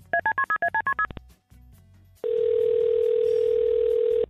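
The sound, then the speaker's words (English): Telephone dialling a call: a rapid run of about nine touch-tone beeps, a short pause with faint clicks, then a loud steady line tone that holds for about two seconds. “Well, I'll dial them up and then you just do what you need to do.”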